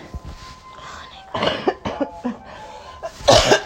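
Coughing from a person left short of breath after laughing hard: a few harsh, raspy coughs spaced irregularly over a quiet breathy background, the last one the loudest.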